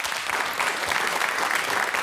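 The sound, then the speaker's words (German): Steady applause from an audience welcoming a guest at an evening panel event, dense and continuous for the whole stretch without a break. “Applaus.”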